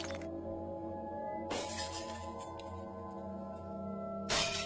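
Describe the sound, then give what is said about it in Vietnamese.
A tray of dishes and food knocked over, crashing and shattering in two sharp bursts, one near the middle and one at the end, over a steady tonal background. “ông Hội dùng mình hất tung luôn cả cái mâm cơm, đổ vỡ loảng xoảng”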